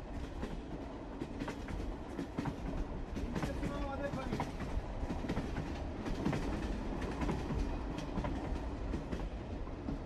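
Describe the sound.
A train running on rails, heard from inside a carriage: a steady, dense rumble with rhythmic clickety-clack of the wheels over the track, holding an even loudness throughout.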